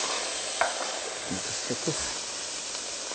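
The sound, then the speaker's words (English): Steady sizzling hiss of onions cooking in vegetable broth in a saute pan, with a few soft knocks from stirring rising briefly above the continuous frying sound. “So we'll put a little vegetable broth, just like last time, add our onions.”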